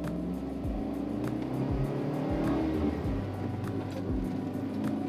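Car engine and road noise from inside a moving car as it is driven, a steady low rumble broken by a few brief shifts in engine tone, with no talk over it.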